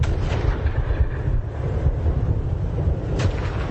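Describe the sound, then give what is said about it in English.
Big artillery guns fire in a dense, continuous barrage of deep booms and rumbling that run together without a break, with one sharper crack standing out near the end. “Hear how intense it is? Big guns. Big guns, right up to the very last second.”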